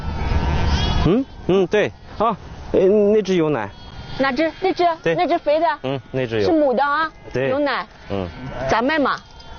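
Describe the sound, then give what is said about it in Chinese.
Milk-giving sheep bleat again and again, many loud, quavering, overlapping calls in quick irregular bursts, some drawn out and low, others short and higher. “啊，这个羊有奶哈，等我们到了下牧场，我们就有羊奶喝，喝到秋天，这个羊还能长得更肥”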